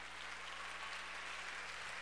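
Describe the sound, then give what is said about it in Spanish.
Audience applause for actors: steady, dense clapping that stays even and fairly faint for the whole stretch, with no talk over it. “Denles un aplauso a nuestros actores.”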